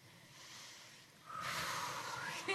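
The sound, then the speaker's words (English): A deep breath drawn by a woman calming herself before a task: a soft, airy breath first, then a louder, fuller rush of breath that holds steady until the end. “Take a deep breath.”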